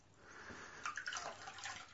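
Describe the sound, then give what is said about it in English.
Faint trickling and pouring water soaks someone's hair during a gentle hair-washing session. Soft, uneven splashes and drips run throughout without any talk. “let me just soak your hair”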